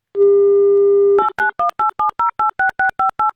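A telephone dials out to a radio listener: a steady dial tone sounds for about a second, then eleven short, evenly spaced keypad tones follow in a quick regular rhythm.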